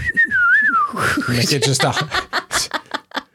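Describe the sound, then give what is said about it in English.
A person whistles a clear, wavering high tone in imitation of a bird call, rising and dipping for about a second before talk and chuckling take over. “I need to figure out the fucking whistle”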